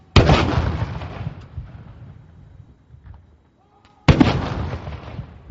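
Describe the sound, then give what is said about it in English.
Two booming cannon blasts of a ceremonial gun salute fire at an official welcome at Parliament House, each a sharp loud report followed by a long rolling decay, about four seconds apart. “Mr. Carney was given a ceremonial welcome with a gun salute when he arrived at Parliament House on Thursday morning”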